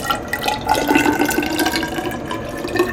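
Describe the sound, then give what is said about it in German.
An unfiltered river water sample is poured into a glass measuring cylinder in a water analysis laboratory, making a continuous splashing, gurgling trickle with small drips that stays steady and moderately loud throughout. “Ich fülle dann jetzt 200 Milliliter von der unfiltrierten Probe in ein Glasgefäß ab. Dafür benutze ich einen Messzylinder.”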